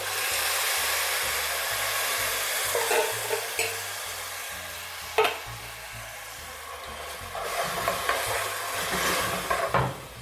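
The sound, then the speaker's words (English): Canned tomato goes into a hot pan of frying ginger, garlic and scallions, giving a steady hiss of sizzling with stirring and a few sharp utensil knocks. “So if I'm starting to see it start to brown again, I'm just gonna go ahead and add that can of tomato.”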